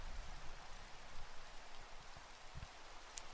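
Light drizzle of rain falling as a faint, even hiss, steady throughout with a few soft low patters and no other sound standing out.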